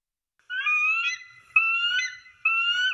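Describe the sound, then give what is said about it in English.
Bald eagle call: three drawn-out, high, tonal cries with a bright harmonic edge, each lasting close to a second and separated by short gaps, with no voices. “that's the sound a bald eagle makes”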